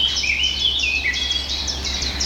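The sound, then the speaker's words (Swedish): A blackcap sings in a series of short, bright, high-pitched warbling phrases and whistles. The song is clear and moderately loud over a faint, steady background. “Svartättan igen.”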